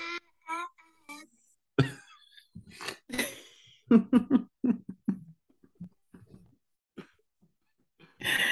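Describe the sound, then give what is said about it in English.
Dog making a string of short, irregular sounds, some breathy and some higher and whining, separated by brief pauses, with a louder burst at the end. “That's my dog, yo. That's my dog.”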